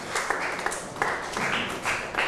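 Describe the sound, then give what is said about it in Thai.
Classmates clapping in a classroom for a pupil who answered the teacher's question, a short burst of scattered, uneven claps at moderate loudness with no talk over it. “อ่ะปรบมือให้กับเพื่อนหน่อยครับ”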